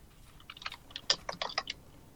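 Typing on a computer keyboard: a quick, irregular run of light clicks and key taps, faint and alone, bunched through the middle of the moment.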